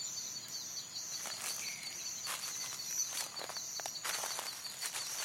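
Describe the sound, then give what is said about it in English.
Footsteps crunching through dry leaves and twigs in the woods, a few irregular crunching steps over a steady, faint high-pitched background hiss. “leaves and twigs under your feet punctuating your journey, every step a collection of small destruction under your heels”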